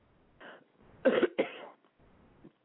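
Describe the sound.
A person with a tickling throat coughs a few times, harsh and breathy. A softer cough comes first, then two louder bursts close together, then a fainter one. No talk is heard.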